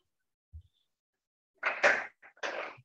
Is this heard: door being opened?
yes